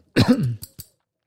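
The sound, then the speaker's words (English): Coughing set off by the smell of a Sharpie marker: one hoarse, throaty cough followed by two short, fainter catches, then silence. “I'm coughing because this Sharpie pen, the Sharpie marker, you know.”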